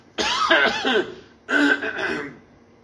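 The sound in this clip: A person clears their throat twice, as a hesitation in speech: a loud, rasping, voiced 'ahem', then a shorter second one after a brief pause.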